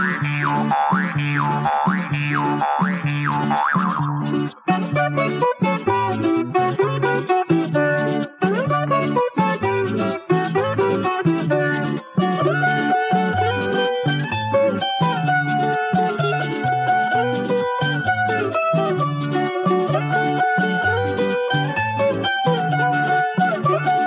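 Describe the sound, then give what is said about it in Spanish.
A jaw harp (birimbao) plays Andean folk music in steady, rhythmic twangs, its buzzing resonance shaping a melody that runs throughout, opening with a wavering, wobbling tone. “Y así me ha sonado el tal birimbao, y suena que suena como un alma en pena.”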